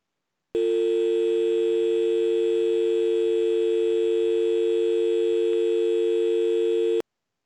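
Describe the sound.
Steady, unbroken telephone tone from a line left off the hook after a caller fails to hang up. It sounds loud and even, holds one pitch with no breaks, and plays alone for about six and a half seconds.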